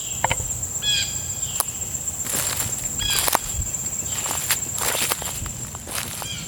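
Footsteps on a hike in southeastern Australia, given as irregular crunching steps over a steady high insect drone, with a few short bird chirps in between and no voices.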